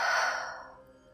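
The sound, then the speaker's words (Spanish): One deep, held breath released through the mouth during Taoist guided meditation, a soft airy exhale that starts full and fades away. “Inhala hasta el fondo. Retienes. Y por la boca sueltas.”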